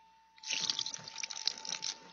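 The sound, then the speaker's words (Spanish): Liquid splashes and trickles as broth is poured over meat and bread resting on a rock, a faint, uneven stream of wet patters that starts abruptly and continues without a pause. “Vierte el caldo y pon la carne y los panes sobre la roca.”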